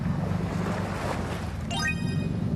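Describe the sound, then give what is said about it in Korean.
A carrier boat pulls alongside an anchovy fishing vessel at sea, giving a steady low engine rumble under a constant wash of water and wind noise. “제가 타고 온 운반선을 가까이 붙입니다. 본선은 계속해서 바다를 누비며 멸치를 잡는 역할을 맡고 있습니다.”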